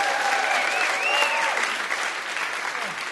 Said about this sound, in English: Can we please give one more hand to all our guests tonight?